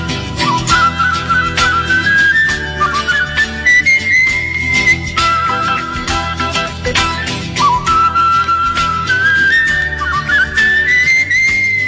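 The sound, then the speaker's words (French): A man's skilful whistling carries a melody over instrumental accompaniment, the clear high tone gliding up and down in long phrases for about twelve seconds, from a poor-quality recording. “Il avait le don de siffler, j'aimais ça, moi. Il y avait tout un sifflet”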